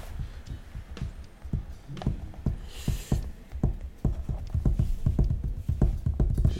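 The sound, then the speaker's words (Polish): Horse hooves clip-clop in a steady, even rhythm of many sharp hoofbeats that grow slightly louder toward the end, with no talk over them. “Konik, konik, tak?”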